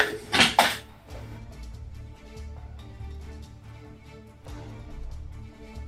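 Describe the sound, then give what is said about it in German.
Dice are rolled for an attack roll in a tabletop role-playing game. A sharp, loud clatter comes first, followed by several seconds of softer, scattered rattling and tapping. “Können wir doch mal gucken, ob wir jetzt besser würfeln als eben. Weiß man ja noch nicht, ne? Fertigkeiten. Angriffswurf.”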